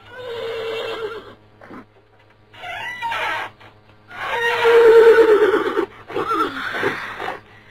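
A horse neighs in a series of a few whinnies separated by short pauses. The calls vary in length, and the longest and loudest comes near the end.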